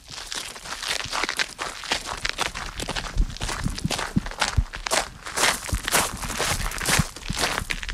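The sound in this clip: Footsteps climbing into a small tower staircase at Château de Saint-Point: many irregular, loud steps with a gritty, crunching scuff, continuing steadily without talk.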